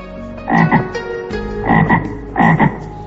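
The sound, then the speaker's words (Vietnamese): A red frog croaks in three paired bursts, each a loud, rough double croak, separated by short pauses. “Một con ếch màu đỏ nhảy từ trong chiếc hộp ra, hàm răng sắc nhọn, đôi mắt xanh lục to lồi không ngừng liếc nhìn xung quanh, trông vô cùng kỳ quái và đáng sợ.”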